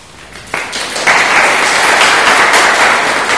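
Audience applause at a live evening event in Christchurch begins abruptly just after the start. It swells about a second in to a loud, steady wash of clapping that continues to the end.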